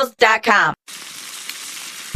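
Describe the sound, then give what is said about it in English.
An egg frying, heard as a steady, bright sizzling hiss that continues evenly after a brief spoken phrase and holds at a constant level. “When it's hot enough to fry an egg on the driveway”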